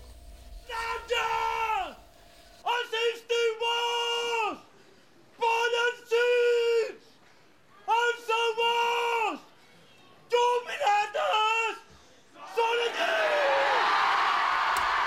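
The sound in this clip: Loud shouted battle cries from the Moors and Christians mock-battle festival in the streets of Pollença, Mallorca, in the evening: a series of long, sustained voiced yells separated by short pauses, ending in broad crowd noise.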